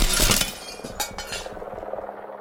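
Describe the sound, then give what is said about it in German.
Window smashing as the tip of a ladder rams through and shatters the frame: a loud crash of breaking glass at the start, then scattered clinks and tapping debris that trail off. “Etwas krachte hinter Winston aufs Bett. Die Spitze einer Leiter war durchs Fenster gerammt worden und hatte den Rahmen zertrümmert.”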